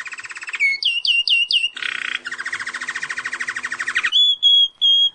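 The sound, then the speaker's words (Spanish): A goldfinch sings alone: a fast, bright, varied song of rapid trills, a few quick repeated chirps and buzzy rattling passages, ending in a few clear sustained notes. “pusimos el sonido de los pajaritos. El que están escuchando es un jilguero, el cantito de un jilguero”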